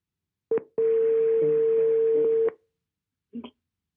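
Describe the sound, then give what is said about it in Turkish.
Telephone tones before a call: a short beep, then a single long, steady mid-pitched tone lasting close to two seconds, followed after a pause by one brief blip. “Hemen arıyorum.”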